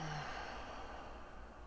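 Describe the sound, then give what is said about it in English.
A deep breath drawn in and let out during a calming breathing exercise, a soft, airy sigh-like exhale, faint and alone. “deep breath in, and out.”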